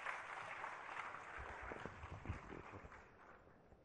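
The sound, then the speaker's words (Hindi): Audience applause welcoming India's Union Textiles Minister to speak at a handloom-sector event, a faint, steady wash of many hands clapping with no voices over it. “जोरदार तालियों से स्वागत कीजिए.”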